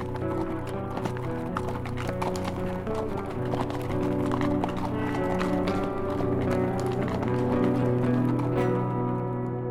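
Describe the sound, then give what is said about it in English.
Hoofbeats of a group of horses being ridden away make a steady, continuous clip-clop of many hooves, holding at an even, full loudness throughout. “Smoke looked at the others and turned his horse's head south toward Colorado and Sally. I guess our job here is done, men. And with that, they all rode south toward home.”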